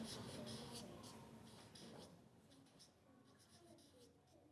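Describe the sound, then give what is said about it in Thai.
Faint scratching of a child writing on paper with a pen or pencil, a steady, dry rasping texture of soft strokes that grows a little quieter toward the end. “อ้าวเขียนได้เลยลูกอาจจะขึ้นต้นด้วยคำว่าสวัสดีก็ได้อ่ะลองดูนะ”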